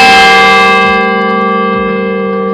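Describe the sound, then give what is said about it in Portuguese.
A church bell rings at São Paulo cathedral. One loud, rich metallic strike with a bright cluster of overtones hums and slowly fades. “Mas ele tocando mesmo? É porque ele toca quando é. A cada 15 minutos ele toca. Também é uma função de auxílio também da igreja, mais uma, sim, né? Sim. Nossos sinos aqui são 61 sinos,”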